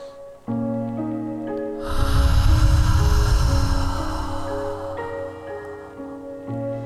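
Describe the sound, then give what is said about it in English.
A deep breath drawn in during a guided anger-release meditation: a loud, breathy rush of air lasting a few seconds over soft, sustained background music. “Open your eyes. Take a deep breath in.”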